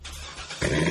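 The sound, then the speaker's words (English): A Corvette sports car engine gives a low rumbling idle that surges abruptly into a louder, fuller growl partway through. “You hear that? That's the sound of America's only sports car. That's right. It's a Corvette.”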